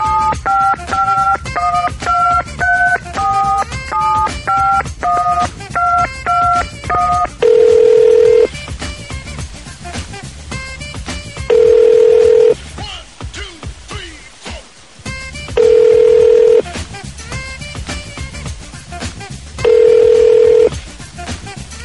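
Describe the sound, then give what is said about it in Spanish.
Touch-tone telephone dialing: a quick run of many keypad beeps at varying pitches, followed by four long, evenly spaced ringback tones that go unanswered. “A ver, le voy a volver a marcar.”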